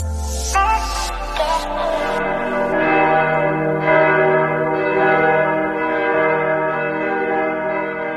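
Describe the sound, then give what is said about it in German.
Church bells ring in Germany to call Christians to prayer. A few clanging strikes open, then overlapping metallic tones hum and ring on steadily, loud and continuous, with no voices. “So klingt Deutschland, wenn Christen zum Gebet gerufen werden.”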